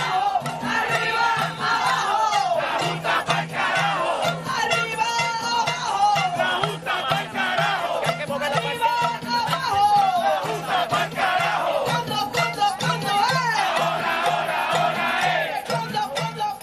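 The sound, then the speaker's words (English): Massive protest crowd chanting as it approaches the governor's mansion in Puerto Rico against Governor Rosselló, loud sustained rhythmic chants from many voices without a break. “it's definitely astounding to hear all those people approach the governor's mansion and to hear just the wide chants that go through the city.”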